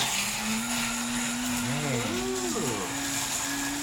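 A blender frothing a drink gives a loud, continuous motor whir, a steady drone whose tones waver and bend briefly in the middle before settling back.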